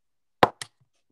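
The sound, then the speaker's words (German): A small plastic bottle dropped onto a table right by the microphone lands with a sharp knock, then a softer second tap a moment later, followed by silence. “Einfach so eine kleine Flasche hier, ne? Lass es nochmal auf den Tisch fallen und mach das Mikro so ganz nah da dran.”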